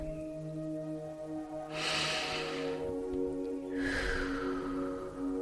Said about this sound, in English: So take a deep breath.